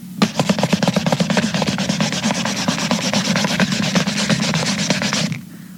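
Rapid rubbing strokes on an old bottle being cleaned, a dense, steady scrubbing rhythm that runs without pause for about five seconds and then stops abruptly, with no voices.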